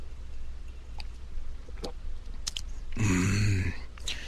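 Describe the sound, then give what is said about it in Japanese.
Someone sipping cooled coffee. A few faint clicks come first, then one loud slurping sip that lasts under a second, with no voices. “ちょっと待ってくださいね、コーヒー飲みます。”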